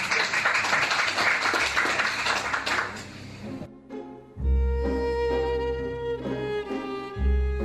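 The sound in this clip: Applause from an audience at the end of a talk: dense, loud clapping for several seconds, then an abrupt switch to music.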